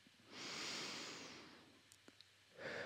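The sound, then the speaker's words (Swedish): A slow, deep breath taken during a guided breathing exercise, long, soft and airy. A few faint clicks follow, then the start of another breath. “Jag tänker vi börjar med att ta några härliga andetag tillsammans.”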